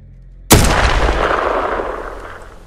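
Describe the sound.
A single loud gunshot cracks out after a moment of near silence, then trails into a long, slowly fading boom and rumble.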